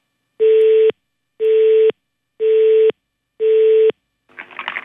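Telephone line tone while calling the Élysée Palace, with four evenly spaced, steady mid-pitched beeps of about half a second each, followed by a short, rougher sound at the end.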